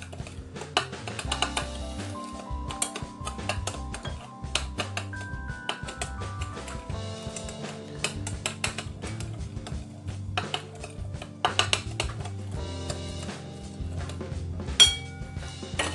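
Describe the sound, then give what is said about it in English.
A spoon stirs a thick brown-sugar mixture, giving many faint, irregular clinks and scrapes against the pot, with no talk. “The sugar is going to go pretty thick when you put it in, so you want to stir that carefully, of course. Get it all nice and mixed.”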